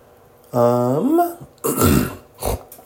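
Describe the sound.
A person snorts: a voiced throaty grunt with wavering pitch, followed by two rough, noisy nasal bursts, each loud and separate.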